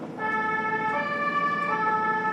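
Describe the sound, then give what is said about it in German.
Ambulance siren from a rescue vehicle speeding with blue lights through a German city centre. A loud, sustained harmonic wail runs throughout with no voices. “Die Hanauer Notfallsanitäter Stefan Froschhäuser und Nils Herzog sind mit dem Rettungswagen unterwegs. Mit Blaulicht und Martinshorn rasen sie durch die Hanauer Innenstadt.”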